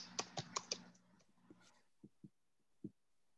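Keys clatter on a computer keyboard in a quick burst of sharp clicks, followed by a few slower, scattered keystrokes. The sound is faint throughout.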